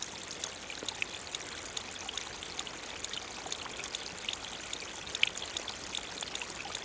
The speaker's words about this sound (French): Déjà, l'eau qui s'écoule vous fait un signe.